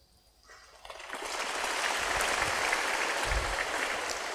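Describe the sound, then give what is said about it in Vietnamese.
An audience at a spiritual teacher's talk breaks into applause that swells quickly from a few claps into a full, steady, even patter and holds at that level. “Sư phụ chưa giải thích mà vỗ tay là siêu lắm, là hiểu hết rồi đó.”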